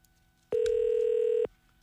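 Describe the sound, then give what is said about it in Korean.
A telephone tone sounds as a call is placed: a single steady, mid-pitched electronic tone lasts about one second, then cuts off cleanly, with nothing else around it. “전화 드려보겠습니다. 전화를 받아주실지. 네. 자, 전화 갑니다.”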